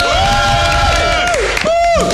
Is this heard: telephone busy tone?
no